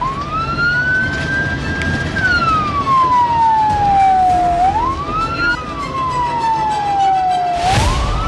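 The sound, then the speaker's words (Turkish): An ambulance siren wails as it heads to an emergency in Tunceli while traffic pulls aside. Its pitch climbs and sinks in slow, sweeping cycles over a constant rumble of road traffic. “Tunceli'de vakaya giden ambulans için araçlar fermuar sistemiyle yol açtı.”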